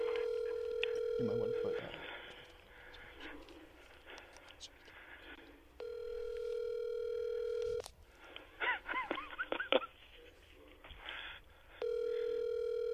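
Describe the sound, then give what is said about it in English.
Ringback tones of an outgoing telephone call, three long buzzing rings spaced by pauses, the last cut short, with people talking in between. “Let's call him. Hold on. We're giving him a ring right now, actually.”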